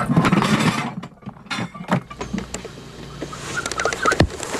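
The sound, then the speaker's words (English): A scaled-down, hand-built wooden trebuchet fires, throwing a 10- to 12-pound object, with clattering mechanical creaks and knocks and a sharp thump near the end. “Now, to get a 10 or 12-pound object going 70 or 80 miles an hour in about a third of a second, which is how long it takes for the trebuchet to actually fire”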